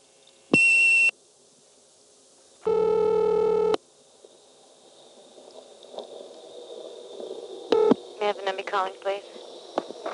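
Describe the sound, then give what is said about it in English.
Telephone tones from an old exchange during dialing: two steady tone bursts, the second longer and lower, then a few brief tones and clicks followed by talk. “I'll dial 1 again.”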